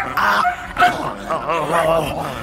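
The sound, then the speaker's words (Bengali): An angry dog snarls and growls after biting at a man's leg, head lowered and stamping; a few short, strained yelping and whining vocalizations come in uneven bursts, fairly loud, with no clear talk. “কুকুরটা মাথা নিচু করে পা আছড়াতে আছড়াতে রাগে গজরাচ্ছে”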